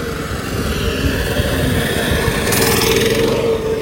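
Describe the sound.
A motorcycle engine runs steadily and loudly throughout, a dense continuous rumble with rough low pulsing and a brighter hiss over the second half, with no talk over it.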